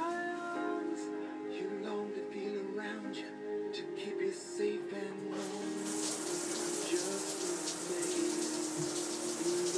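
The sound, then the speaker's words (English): Shower water runs over an iPhone. A steady splashing hiss starts about halfway through and continues under soft background music. “Sound of the iPhone having a shower.”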